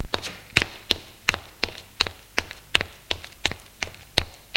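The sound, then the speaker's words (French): Footsteps of a man climbing stairs: a brisk, even run of sharp thumping steps, many in quick succession at a steady pace, with no voices. “L'homme monte les escaliers.”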